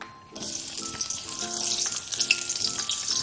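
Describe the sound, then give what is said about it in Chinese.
Scallion and ginger slices hit hot oil in a wok, bursting into a bright, crackling sizzle that swells and stays steady with faint spatters and clinks throughout, no talking. “开火热锅，倒入油，油热了，倒入葱姜片爆香，”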